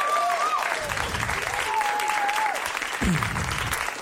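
Audience applause for the sound designer at a live show, a steady wash of clapping that stays fairly even in level, with a few tonal whistle-like sounds over it.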